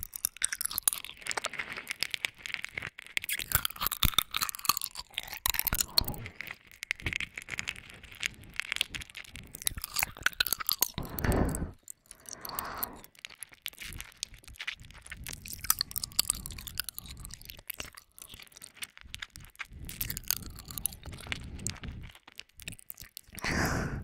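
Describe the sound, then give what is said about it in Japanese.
Wet mouth sounds of someone licking a candy, with many quick smacking, clicking and slurping noises in an irregular, continuous stream, heard alone. “だからチューじゃないってば。 キャンディー舐めてる音なの。”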